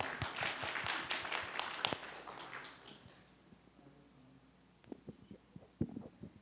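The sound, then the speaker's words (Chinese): Congregation applause at a church thanksgiving testimony meeting: a short burst of clapping for about three seconds that fades out, followed by scattered taps and faint voices. “先请请左姐妹来给她一个掌声好吗？”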